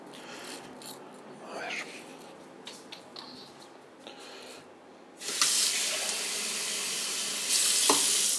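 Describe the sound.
Water runs from a tap. Quiet rustling and rubbing come first, then a loud, steady hissing rush of water starts partway through and continues to the end.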